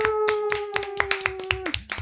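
Audience clapping along in a quick, even rhythm of about four claps per second, under a held group "ooh" voiced by the crowd that drops in pitch and fades near the end.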